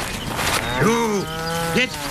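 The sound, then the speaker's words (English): Cows mooing while being herded into a barn at night: a long, low, wavering moo, then a shorter second call. Steady background noise runs beneath. “they began herding the cows into the barn as they did every night”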